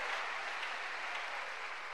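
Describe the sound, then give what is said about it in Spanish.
Congregation applauding during a church service, a soft, even wash of many clapping hands that holds steady throughout. “¿Cuánto le dan un aplauso a esa misericordia de Dios?”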